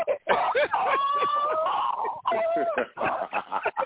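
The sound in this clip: A dog whines in drawn-out, high-pitched tones, mixed with short barks and yips and other scuffling noise, in two main whimpering stretches.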